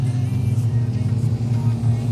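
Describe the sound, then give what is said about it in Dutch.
Racing car engine on a circuit, heard as a steady, low, droning hum with a slightly fluttering texture throughout. “het is voorlopig Jelle Stark die de auto goed op de weg weet te houden”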